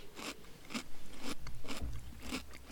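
Someone eating, with a few sharp, crunchy bites and chewing bursts in a steady rhythm, moderately loud with no talk.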